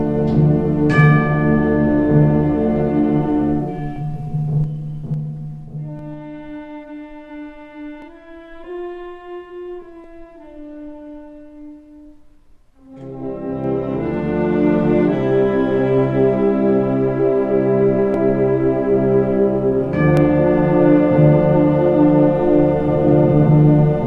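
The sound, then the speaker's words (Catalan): Bell-like tolling tones in a funereal passion-music composition sound as loud, sustained pitched notes that shift in pitch, with a thinner, quieter middle passage before the full texture returns. “esta campana que sona a mort”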